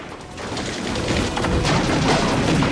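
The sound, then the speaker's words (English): Sustained machine-gun fire tears through a barn's wooden paneling. A dense, unbroken clatter of shots and splintering wood grows slightly louder through the second half. “Beckett aims at him, but is forced back as Suahano's machine gun cuts the barn's wood paneling apart.”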